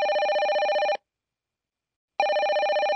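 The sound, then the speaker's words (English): A telephone ringing in a hotel guest room, with two bursts of steady electronic trilling separated by a silent pause of about a second. “Alberto tried to connect the caller to Ms. Perrin's room.”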